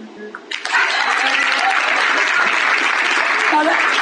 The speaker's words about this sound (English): Stand up and show them how to clap.